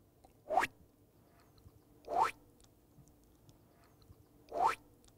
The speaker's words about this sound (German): Zum Beispiel die passenden Geräusche. Ganz besonders wichtig, der Sprung.